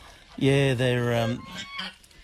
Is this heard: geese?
yes